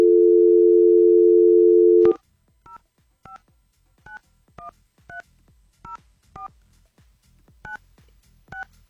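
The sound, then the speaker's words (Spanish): A telephone dial tone holds steady for about two seconds, then cuts off into a brisk series of many evenly spaced, dual-pitched keypad beeps as a number is dialed to place a call. “A ver, está sonando. Vamos a ver si nos contesta.”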